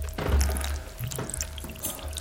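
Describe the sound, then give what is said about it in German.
Water poured into an azalea's plant pot during watering, a soft, faint trickling and splashing that swells briefly and then continues unevenly, with no voices. “Er gießt der Azalee nach. Danach bekommt sein Philodendron zu trinken.”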